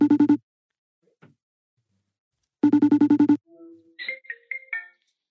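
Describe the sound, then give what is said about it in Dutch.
A phone ringing while a call is placed: two bursts of rapid, trilling electronic rings separated by a silent gap, the second longer, followed by a few brief higher tones. “Maar goed, zullen we Wies gaan bellen?”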